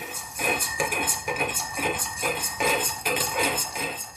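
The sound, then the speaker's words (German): A spoon stirs coffee in a cup, clinking lightly against the sides in a steady, repeating rhythm of many quick taps at moderate volume. “Ich rühre noch den Kaffee um.”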